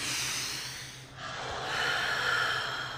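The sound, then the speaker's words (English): A single deep cleansing breath, heard as a long, airy rush of breath that briefly dips near the middle and then swells again, with no talking. “Deep cleansing breath.”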